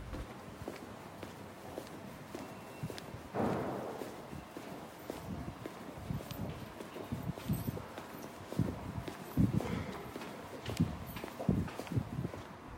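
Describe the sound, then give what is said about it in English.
Busy ticket hall of King's Cross St Pancras Underground station: many footsteps clicking and shuffling over a steady, faint din of crowd hubbub. “I'm just walking into the ticket office bit of the St Pancras, King's Cross Underground. I mean, that's a busy place.”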